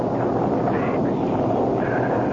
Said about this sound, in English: Just a storm.